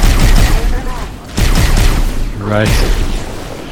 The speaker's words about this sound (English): Lokothor was detonated by a rocket launcher.